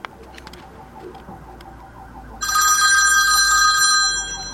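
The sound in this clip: Telephone ringing as a listener's call comes in: a bright, steady electronic ring starts partway through and keeps going to the end, loud over a low background hiss.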